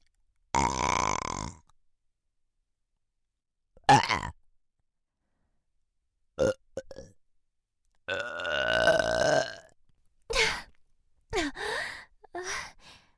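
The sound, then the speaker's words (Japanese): Burping, several loud, throaty burps separated by silence, some long and rumbling and others short and abrupt. “ゲップじゃないかと。”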